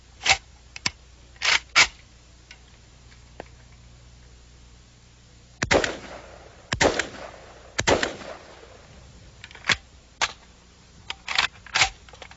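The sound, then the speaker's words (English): Sharp single reports from a semi-automatic firearm, one round per trigger pull, come as several separate cracks at uneven intervals, some close together and others spaced well apart, with no voices. “It's a semi-automatic firearm. A look-alike, but very much different. One pull of the trigger, you get one round. You get another round, you have to pull the trigger again. Let me show you that.”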